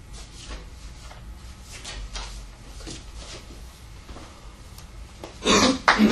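Throat clearing during a reading: a short, rough, raspy burst near the end, after a stretch of faint shuffling noise. No talk.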